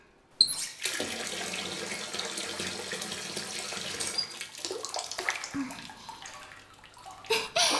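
Hot water runs into a bathtub in a steady, loud rushing stream that starts abruptly, keeps going almost to the end with slight splashy variation, then stops briefly before a couple of final splashes.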